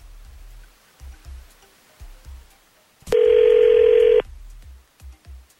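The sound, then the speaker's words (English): An outgoing telephone call gives one steady, buzzing ring tone about a second long, standing out over soft low rhythmic thumps that pulse before and after it. “Why don't we call him?”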